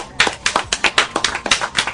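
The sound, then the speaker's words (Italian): Rhythmic clapping from an audience: many sharp, evenly spaced claps in a quick, regular beat. “Applauso.”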